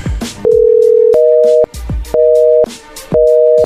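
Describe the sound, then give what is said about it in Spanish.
Telephone tones on a call being redialed: one long steady tone, then two more shorter tone bursts separated by gaps, all fairly loud, with a few sharp clicks between them. “A ver, márquenle de nuevo.”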